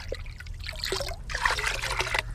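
Water trickling and pouring as tiny frogs are tipped from a container into a garden pond, a soft, continuous splashy dribble lasting a couple of seconds with no voices over it.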